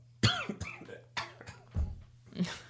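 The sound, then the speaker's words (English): A person clears their throat in several rough, rasping bursts separated by short pauses, fairly faint and with no speech around them. “that's a throat clear.”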